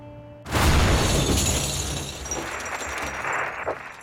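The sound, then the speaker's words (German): A bomb explosion in an Iranian grocery shop in Cologne's old town: a sudden loud blast breaks in after a low steady hum, then several seconds of rumbling, shattering and crackling debris with no talk. “Es ist am heutigen Freitagmorgen in einem iranischen Lebensmittelladen in der Kölner Altstadt zu einer schweren Explosion gekommen.”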